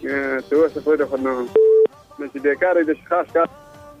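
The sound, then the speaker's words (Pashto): A single short electronic telephone beep marks a call being cut off and the line disconnecting: one flat, steady mid-pitched tone lasting well under a second, set between stretches of a person talking before and after it. “زما غږ اورئ؟ هلو فکر کوم چې اړیکه یې قطع شوې ده. اوبای جان اړیکه شته که پرې شوې ده؟ اړیکه یې له بده مرغه چې پرې شوې ده.”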